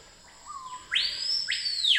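Bird song with an insect's steady high-pitched buzz running above it: a short plain whistled note, then two louder, bright sweeping phrases.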